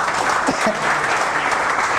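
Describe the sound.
A church audience applauds to acclaim the Lord, with dense, steady clapping that stays at an even loudness for the full two seconds.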